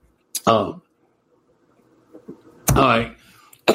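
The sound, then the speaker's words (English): Someone coughs harshly while choking up during a talk: a few abrupt, rough bursts separated by quiet gaps, the last one cut short. “Boy, isn't that timely here? I don't think I've ever choked up on the air before. Excuse me.”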